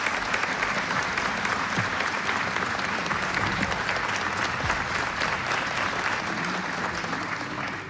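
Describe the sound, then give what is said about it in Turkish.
An audience applauds a choir and its conductor with sustained, dense clapping from many hands, holding steady and easing slightly at the end. “Koromuzu ve Şef Mehmet Erenleri gönül dolusu alkışlıyoruz efendim.”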